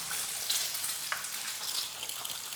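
A fried egg sizzling in hot oil in a pan, giving a steady, bright crackling hiss dotted with small sharp pops that carries on evenly with no talk.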